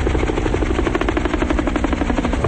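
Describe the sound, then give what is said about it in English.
A helicopter speeding through the sky over water and small islands: a loud, steady, rapid rotor chop with evenly spaced beats and an engine drone underneath. “Shown from overhead, a helicopter speeds through the sky.”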